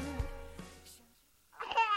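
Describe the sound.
A baby babbles and fusses in a baby-care advertisement, with short high-pitched voiced bursts, a brief pause, then a louder, strained cry-like sound at the end.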